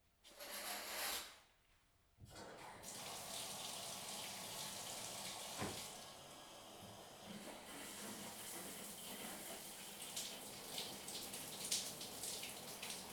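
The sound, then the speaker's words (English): Shower water runs in a steady, broad hiss after a brief pause near the start. It then holds a constant level, with faint spattering flickers throughout. “So you're gonna hear some shower water for a bit.”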